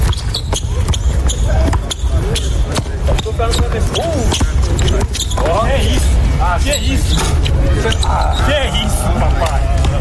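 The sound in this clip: A basketball is dribbled on court during a game, a rapid string of many sharp bouncing thumps that runs throughout, with players talking and calling out over it.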